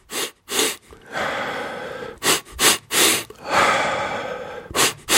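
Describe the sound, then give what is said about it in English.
Rapid breathing exercise to excite the nervous system: several sharp, quick breaths in short bursts, alternating with longer, steadier breaths, in a repeating pattern. “when I excited my nervous system, it was three quick inhalations and a short exhalation.”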